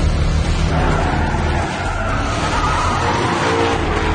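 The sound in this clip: A car skids through a sharp turn during a chase. The tires make a loud, continuous hiss mixed with roaring engine noise that holds steady for the whole clip, with no talk.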